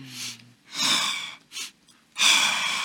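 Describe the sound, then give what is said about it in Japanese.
Martial arts breathing, with quick inhales and slow exhales: four breathy bursts of air of differing lengths, separated by short pauses, moderately loud with no talking. “基本的に武道の息遣いは素早く吸っといてゆっくり吐くという、”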